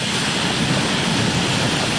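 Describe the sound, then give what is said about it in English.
Giant center pivot sprinklers spray water over fields of corn, soybeans and wheat near Garden City, Kansas, making a loud, steady rushing hiss that never lets up. “Giant center pivot sprinklers near Garden City douse fields of corn, soybeans, and wheat.”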